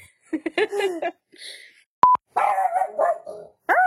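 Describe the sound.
A dog barks twice in a sharp, quick pair, breaking into a conversation. People talk before and after the barks.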